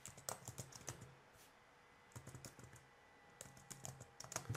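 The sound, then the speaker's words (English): Quiet typing on a computer keyboard as an SQL insert statement for an error log is entered, with many soft keystroke clicks arriving in uneven bursts separated by short pauses. “So I just type in my log statement, insert into error log.”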